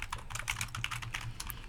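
Quick typing on a computer keyboard during a radio sports show, a short burst of light, irregular key clicks lasting under two seconds with no talk.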